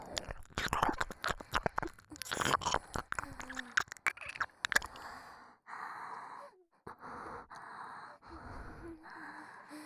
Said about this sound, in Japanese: 耳の穴を舐められるのは初めてですか？